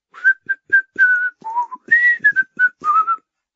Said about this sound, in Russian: и от радостных чувств засвистел неумело, но громко.